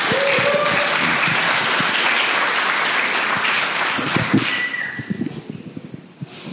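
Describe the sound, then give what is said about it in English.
Audience applause greets a storyteller taking the stage at a storytelling night: a dense, steady wash of clapping that holds for several seconds, then thins toward the end into scattered, separate claps. “Everybody, put your hands together for Brooke.”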